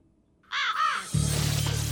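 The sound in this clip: A raven cawing: two harsh, raspy caws in quick succession, loud and clear, followed by a steady low hum.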